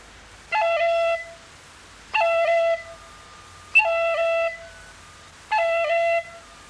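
A short roll on the note E is played on a whistle with all holes covered except the bottom one, using an A-finger cut and a bottom-finger tip. Four brief ornamented notes sound alone, each separated by a short pause.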